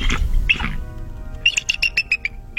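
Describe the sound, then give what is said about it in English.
A bald eagle call: a rapid run of high, thin chirping notes, loud and quickly repeated in a chattering series, follows a short stretch of other sound. “This is a bald eagle.”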